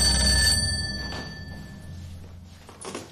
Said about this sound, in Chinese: 拨通了家里的电话，问顾秋燕